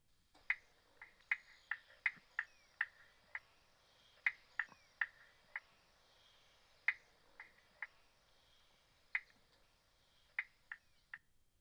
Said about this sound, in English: Spotted Marsh Frog.